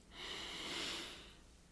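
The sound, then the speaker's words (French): A slow inhalation during a guided relaxation exercise, heard alone as one soft, airy intake of breath that swells and fades over about a second, faint and steady. “Inspiration.”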